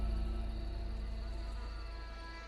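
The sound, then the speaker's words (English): Flies buzz around entrails and a heap of bloody, rotting animal flesh: a steady, loud insect drone with a constant pitch, unbroken from start to end. “Flies buzz around the entrails.”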